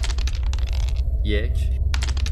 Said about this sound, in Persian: برای دیدن آسیب دو بار تاس 6 بچی بریز.